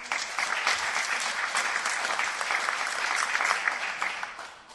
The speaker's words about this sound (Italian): Un applauso,